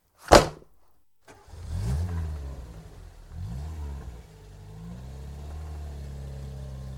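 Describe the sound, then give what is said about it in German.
A car sets off fast in pursuit: a brief sharp bang, then the engine catches and revs hard in rising sweeps of pitch as it accelerates away, staying loud and throaty to the end with no talk. “Los in den Wagen, schnell hinterher!”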